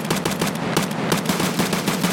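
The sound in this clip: Pistol gunfire in a video game: many sharp shots in a fast, steady run, loud and continuous with no talk.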